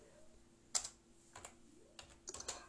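Quiet typing of a short message, soft key clicks coming in small irregular clusters with brief pauses between them.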